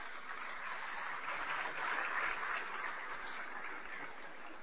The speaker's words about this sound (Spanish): Les recibimos con un fuerte aplauso.